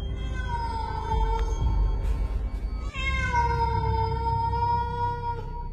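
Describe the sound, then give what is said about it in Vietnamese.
A cat lets out a harsh, screeching yowl, drawn-out wavering cries that bend up and down in pitch, followed by a second long, loud wail. “Con mèo nó rít lên một tiếng ghê rợn”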